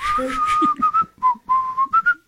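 A person whistling a short, bright tune of several high notes, some held and others clipped, with slight shifts in pitch between phrases.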